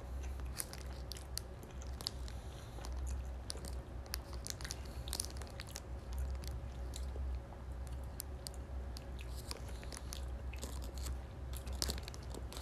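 Faint chewing and biting on a packaged Yamazaki burger with barbecue sauce and cheese. Soft, moist squishes mix with small irregular crunches that continue steadily throughout, with no talk.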